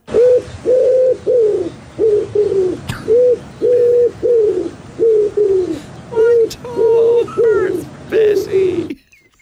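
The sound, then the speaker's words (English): Pigeon cooing: many soft, rounded coos in a steady repeating rhythm, each a short low-pitched phrase separated by brief gaps, continuing through the whole clip over faint background noise. “So every pigeon everywhere makes that sound at some point. We all know it.”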